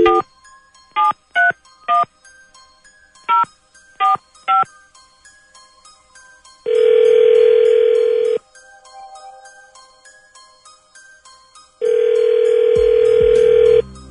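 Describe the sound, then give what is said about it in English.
A telephone being dialed on a touch-tone keypad: seven short beeps at an uneven rhythm, followed by two long, steady ringing tones separated by a pause. “All right, here we go. Dialing at random.”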